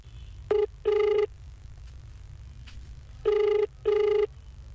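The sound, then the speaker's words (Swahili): After a number is dialed, a telephone rings on the line with two paired bursts of a steady tone separated by a long pause, over a faint low hum. “Uje nipige mara ya mwisho hapa nione hata kama nitapokea.”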